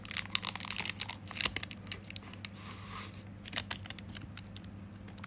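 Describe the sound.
Crinkling plastic wrapper of a Calorie Mate block as it is torn open and the bar eaten, with many quick, crackly rustles in irregular bursts over a faint steady hum, no voices.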